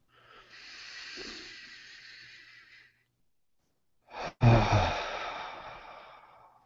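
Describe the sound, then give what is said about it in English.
Deep breathing during a guided meditation. A long, slow, airy inhale gives way to a brief silence, then a long hissing exhale opens with a sharp puff of breath. Nobody speaks. “So just a couple more breaths.”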